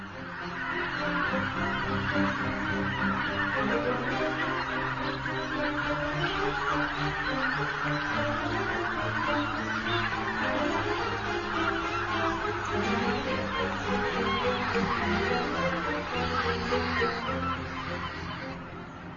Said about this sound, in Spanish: El regreso de los gansos anuncia la llegada de otra primavera. De nuevo, forman impresionantes y escandalosas bandadas de miles de individuos.